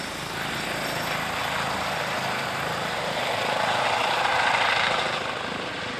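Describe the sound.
An emergency doctor's helicopter flies past with a steady, dense whirring roar that holds for six seconds and swells slightly near the end, with no voices.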